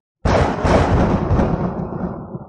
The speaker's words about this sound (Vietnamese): Một tràng tiếng sấm vang lên